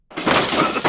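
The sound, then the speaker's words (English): Harsh crunching and cracking of tiles being smashed during a messy bathroom demolition renovation, a single loud, sustained burst of breakage with no voices. “This is the sound of renovating your bathroom the messy, time-consuming, expensive way.”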